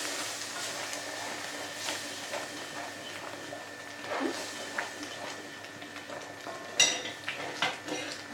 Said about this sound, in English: Now we will add the boiling water on it. Slowly and stirring in the same time.